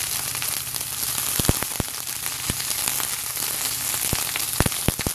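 Vegetables frying in olive oil give a steady, dense sizzle, broken by scattered sharp crackles and pops that stand out most near the middle and end. No voices are heard.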